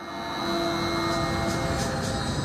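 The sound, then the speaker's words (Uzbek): A freight train arriving at a port from China, a steady low rumble with a faint tonal whine that swells in over the first half second and then holds level. “Portda navbatdagi poyezd Xitoydan yetib keldi.”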